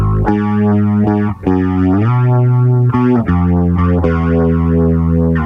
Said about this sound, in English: which is a grit and a flange, but with the rate turned up enough so it's more of like a sort of in the chorus territory